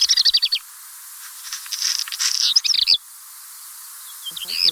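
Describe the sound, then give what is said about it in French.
A black redstart sings high, thin phrases: a rapid run of short whistled notes opens, followed by a scratchy, crackling middle section and another brisk twittering phrase, then a new phrase starting at the end. “Und so klingt dieser Hausrotschwanz in der Aufnahme der Vogelwarte Sempach.”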